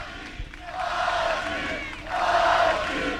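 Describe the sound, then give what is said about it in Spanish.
Deportivo de La Coruña football fans cheer their team, a roaring crowd of voices that swells, eases slightly, then surges again even louder. “recibiendo esos ánimos de toda la afición del Deportivo de La Coruña, que hay unos cuantos, o sea, impresiona la cantidad de gente que hay, se han quedado muchísimos, y mira, pongo el micrófono para arriba y escucháis.”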